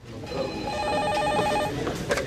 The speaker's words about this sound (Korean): 전화가 걸려왔습니다.